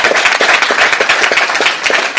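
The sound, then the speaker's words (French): Audience applause at a live event after a short video screening: many dense, overlapping claps forming a steady, fairly loud wash that holds throughout without voices. “Vous pouvez applaudir le travail qui a été fait.”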